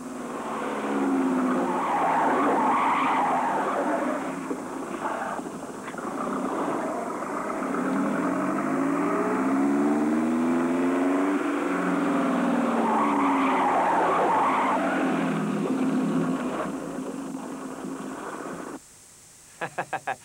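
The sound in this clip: A car's tires squeal as it skids through turns, in two long, sustained screeches with a wavering, whining pitch. The screeching cuts off abruptly near the end, followed by a few short, sharp knocks.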